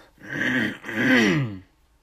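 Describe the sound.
Throat clearing in two voiced, rasping bursts with a brief pause between them, moderately loud and alone with no talk.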